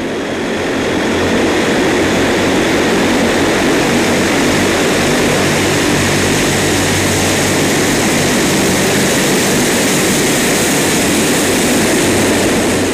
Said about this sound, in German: Das weltgrößte von Propellerturbinen angetriebene Langstreckentransportflugzeug rollt in Gostomel nahe Kiew an den Start.